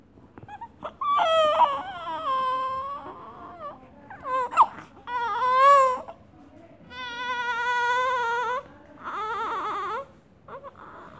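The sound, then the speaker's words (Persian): A newborn baby cries in a maternity hospital: several loud, high-pitched wailing bursts separated by short pauses, with the cries rising and falling in pitch. “صدای نوزاد”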